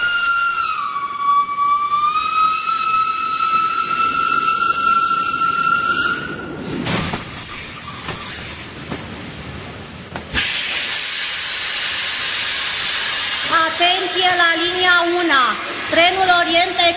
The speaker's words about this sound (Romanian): Trenul Orient Express din direcția Istanbul-București sosește în stație la linia 1 și va pleca în direcția Paris via Hamburg.